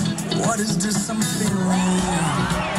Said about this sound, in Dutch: Je hoort het publiek helemaal uit zijn dak gaan.